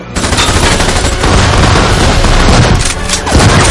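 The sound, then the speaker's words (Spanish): Pistol gunfire as two people shoot at a mummy in an action-fantasy film scene. The shots blur into a loud, dense, continuous clatter with a booming low end rather than separate cracks. “el dispara a la momia de Imhotep.”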